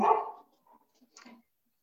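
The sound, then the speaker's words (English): A dog barks once loudly at someone at the door, then gives a few faint, short yips. “sorry, my dog, someone came to the door. I think they dropped off a package. I'll calm down in a second.”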